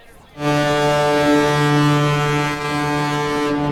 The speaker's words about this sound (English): Tugboat's probably going to be dumb loud then.